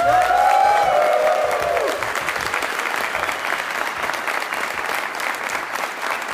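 A live studio audience applauds a radio show at the University of Memphis in Tennessee. Many hands clap in a sustained, dense wash that is loudest in the first two seconds, then settles to an even level.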